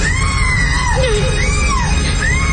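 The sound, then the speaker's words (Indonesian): A woman screams hysterically in long, wavering, high-pitched wails over a loud, constant noise. “Hingga kulihat sosok wanita menyeramkan itu berteriak histeris.”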